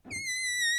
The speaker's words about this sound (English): Do you think people who are listening to the show, like podcast, okay, only know what that sound is? It's a balloon.